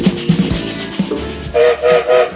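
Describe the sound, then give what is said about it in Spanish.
A train moves off with its whistle blowing. A rumbling, clattering noise leads into three loud, evenly spaced whistle blasts near the end. “el tren ya está en movimiento, sonó el silbato”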